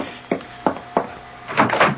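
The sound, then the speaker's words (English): A front door opening late at night, with three sharp, evenly spaced wooden knocks followed by a short burst of clattering handle and door noise, loud and without talk. “The front door at this hour? I'll go.”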